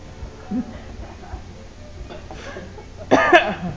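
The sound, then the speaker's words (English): A short, sharp throat clearing breaks out near the end, loud against an otherwise quiet, faintly noisy background with a few soft low thumps before it. “You cleared your throat for me.”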